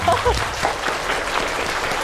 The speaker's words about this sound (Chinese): 他们俩的表演我们还是给他们俩掌声吧，好吗？